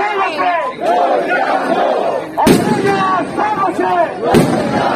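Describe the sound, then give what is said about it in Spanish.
Firecrackers or bombas de palenque crack twice, sharp and loud, over a large crowd chanting rhythmic slogans at a street protest for industrial jobs. “Ahí están con las bombas de palenque o los petardos, en fin, todos los espectáculos que también suelen llevar de pirotecnia en este tipo de manifestaciones y concentraciones”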